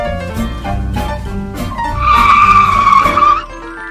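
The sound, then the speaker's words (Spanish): A car starts and drives off, its tires skidding: a low engine rumble builds, then a loud, sustained tire squeal cuts in about halfway through and stops abruptly near the end. “Compra un coche, el transporte del futuro. Es cómodo y fácil de usar. Muy fácil de usar. La ciudad es tuya. Sube, arranca y disfruta el paseo.”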